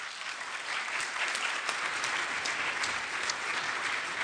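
A church audience applauds to welcome a guest chaplain, a steady, dense clapping that holds at an even level for the whole stretch with no voices above it.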